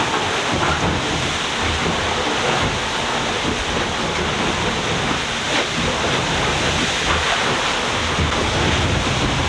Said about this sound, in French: Donc c'est une vague qui passe par-dessus le pont.